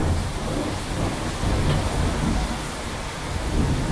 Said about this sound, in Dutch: 6 miljoen jaar regen. Hevige buien die niet van hun plaats kwamen.